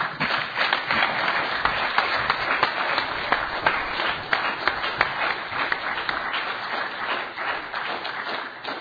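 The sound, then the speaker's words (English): Audience applause at a recovery meeting for two speakers who have just shared their story. The dense clapping holds steady and fairly loud throughout, with a few sharper individual claps popping out of the wash. “maybe one more round of applause and thanks to Jody and John for sharing their experience, strength, and hope with us.”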